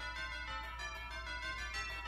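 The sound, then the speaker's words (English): A Christmassy musical jingle plays quietly, with bright ringing bell tones over a steady low bass and a regular pulsing beat, without talk. “That's my favorite one. Is that your favorite one? It's got a little Christmassy to it. The bells, you know? Just love it.”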